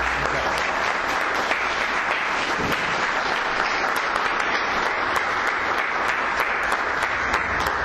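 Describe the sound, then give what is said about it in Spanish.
An audience applauds to welcome a priest before his philosophy lecture, with loud, dense clapping that stays level for several seconds without a break. “Padre Ignacio, muchas gracias por su presencia y lo recibimos con un fuerte aplauso.”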